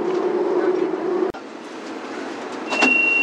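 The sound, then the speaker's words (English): Beijing subway train running into Tuanjiehu station: a steady loud rumble with a low motor whine, a brief sharp cut partway through, then the noise swells again with a thin high tone near the end. “团结湖站到了。We are arriving at 团结湖 station.”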